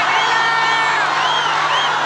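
An audience cheers as a band finishes its set in the final of a contest: a loud, unbroken crowd roar with whoops and whistles rising through it for the whole clip.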